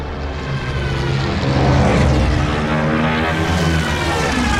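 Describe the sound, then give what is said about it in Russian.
Propeller airplanes flying overhead in a scene of the German army entering Lithuania during the war: a loud, steady engine drone with a low rumbling hum, swelling slightly midway and holding for the whole clip. “В небе появились самолеты.”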